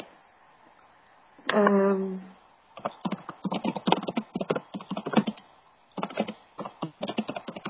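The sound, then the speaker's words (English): Typing on a computer keyboard: after a brief voice, a long run of rapid, irregular clicks and clacks with a short pause partway through. “Can you type the exact name?”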